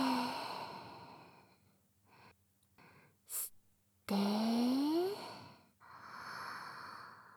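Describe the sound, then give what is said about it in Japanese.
Deep breathing, slow and deliberate, with long airy inhales and exhales separated by brief pauses and one louder, sighing breath in the middle of the sequence. “目をつむって、はーい、深呼吸。吸って、吐いて、”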